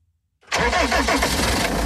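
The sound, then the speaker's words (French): A highway patrol van's engine starts on the A79 motorway in Allier, France: after a short silence it cranks and catches, then settles into a loud, steady idle. “Il s'est installé à bord d'un fourgon.”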